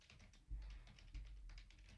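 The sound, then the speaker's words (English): Rapid typing on a computer keyboard, many quick, irregular keystroke clicks running continuously over a low steady rumble, fairly quiet and with no voices. “Now I'm having to look it up. I like listening to you type.”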